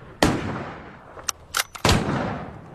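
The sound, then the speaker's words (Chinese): Rifle gunshots from shooters taking turns firing at targets from behind sandbags: a few sharp cracks spaced unevenly, two of them louder with a lingering rumbling tail and quieter shots between, all fairly faint overall. “他和卡贾木的人一人一枪轮流射击，每人开了三枪。”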